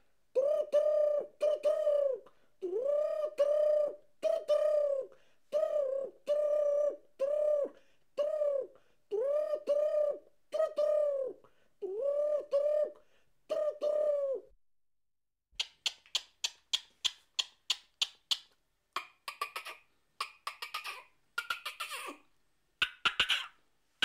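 A wood pigeon and a turtle dove coo in turn. First comes a long run of steady, low, hollow coos in evenly spaced phrases, then a faster series of short, pulsing, purring calls.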